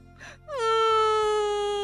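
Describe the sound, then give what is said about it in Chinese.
A voice imitates the young elephant Nini crying. A brief breathy sob leads into a long, loud wail that slides down in pitch and then holds steady. “小象妮妮见到妈妈，终于把满肚子的委屈都哭了出来。”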